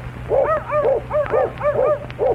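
A little dog barks in a quick run of high, yipping yaps with a whiny, arched tone, several short barks in uneven rhythm over a low steady hum.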